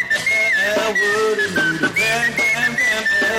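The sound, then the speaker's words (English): A man whistles a wavering tune, loud and alone. The clear, high tone bends and slides between notes in short melodic phrases with brief breaks between them. “His whistling, wow. His whistling's almost as good as his trumpeting.”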